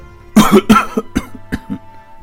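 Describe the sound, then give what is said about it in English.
A sick man coughing up blood in a fit of several harsh coughs, the first bursts strongest and the later ones weaker and shorter, with no talk. “The prince then begins to cough, a bit of blood appearing on his lips.”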